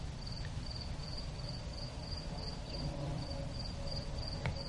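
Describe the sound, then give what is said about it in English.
Crickets chirp in a steady, high, thin trill that pulses rapidly and evenly, continuous and unchanging in loudness throughout, with no voices. “I hear crickets right now. That sounds like a cricket to me.”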